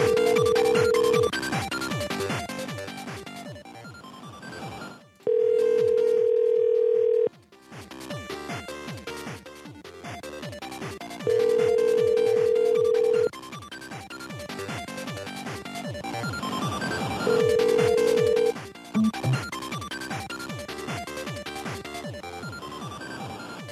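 Ringing tone of an unanswered phone call to Joe's Restaurant: four long, steady beeps spaced several seconds apart, sounding over continuous background music.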